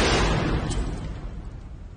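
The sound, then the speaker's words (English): Gunfire as a man empties his gun into a casket. A loud, booming burst is followed by a rumbling decay. “How cringes as Mr. V empties his gun into it.”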